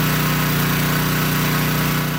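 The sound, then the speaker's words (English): Pumps drain water from the flooded basement of a home in Minnetonas, Manitoba, after heavy rain. A loud, steady motorized drone with a buzzing hum runs unbroken throughout. “Pumps at Connie and Lori Lausman's place sucking water out of their basements.”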